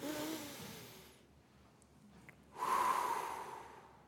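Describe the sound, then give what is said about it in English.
A deep breath taken slowly: a long airy rush of breath, a quiet pause, then a second, louder and fuller breathy rush that holds steady to the end. No talking is heard. “There's so much value in just taking one deep breath”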